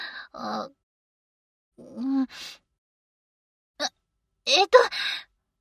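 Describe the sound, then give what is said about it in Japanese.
A woman crying hard, heard as short sobbing gasps and shaky breaths in several separate bursts with silent gaps between them. “あんた泣いてるの？今まで何しても泣かなかったのに。ガチ泣きじゃないの。”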